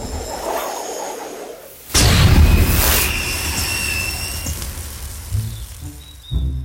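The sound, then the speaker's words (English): A magic blast spell fired into the air, heard as a sudden loud booming burst with a long hissing tail that slowly fades after a quieter opening. “Lex follows, and then she'll Eldritch Blast into the air. Off we go.”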